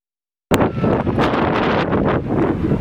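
Strong wind blows around tents in Herat, bursting in suddenly after a short silence as a loud, steady roaring rush with gusty flutters throughout.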